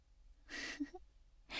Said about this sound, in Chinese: 瞧你这大喘气的